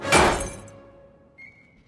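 A pocket watch is smashed with a single sharp, crunching impact. A brief shattering rattle fades away, and then a faint, high, steady ringing tone follows.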